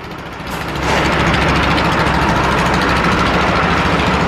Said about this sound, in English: Okay, truck in the way.